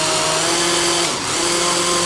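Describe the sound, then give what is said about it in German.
A food processor with its lid on chops a garlic clove, its motor a loud, steady whirring drone that dips briefly in the middle. “Dann nochmal Deckel drauf und vermischen lassen.”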